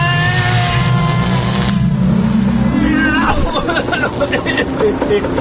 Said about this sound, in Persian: این هفته این ماشین زمان رو روشن کنیم ببینیم کجا میبره ما رو، گذشته یا آینده